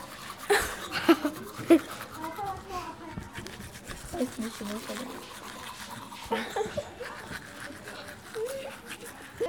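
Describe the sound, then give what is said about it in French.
Children brushing their teeth with toothbrushes: brisk, uneven scrubbing and scraping with splashes of water, mixed with children's chatter and laughter throughout. “Et même se brosser les dents, on le fait en s'amusant.”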